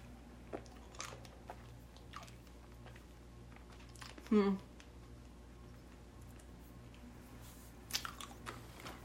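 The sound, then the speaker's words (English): Crunching bites into an Oreo-flavoured candy cane: one sharp, loud crunch mid-clip and a smaller crackle near the end, with faint clicks scattered over a quiet background. “I guess I really am eating the top of the candy cane then.”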